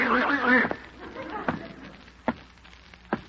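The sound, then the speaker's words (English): Goose-like honking from a long-necked bird: first a harsh, harmonic stretch of honking, then three short, sharp honks spaced well apart. “you infernal, long-necked imitation of a feathered friend”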